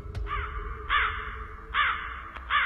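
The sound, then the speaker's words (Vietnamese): A black crow caws harshly as it bursts out of bushes in a forest at night: three loud, raspy caws spaced evenly apart, with a few sharp clicks between them. “Từ đằng sau có con quạ đen từ trong bụi cây nhào ra, kêu lên những tiếng thẳng thốt.”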